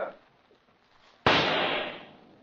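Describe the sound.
A single pistol shot aimed at an insect on a wall: one loud, sharp crack midway through, with a long, slowly fading tail after near silence.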